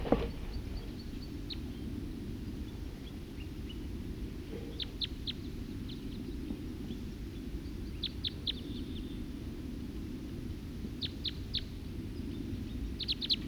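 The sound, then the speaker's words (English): Wild birds chirping in short clusters of high notes, a few bursts spaced several seconds apart, faint over a low, steady background hum. “Wild birds.”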